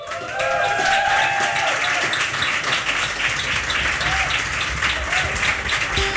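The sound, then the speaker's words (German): Audience applause follows a live music session on a rooftop terrace, a dense, steady wash of clapping that holds at an even loudness for about six seconds. “Applaus!”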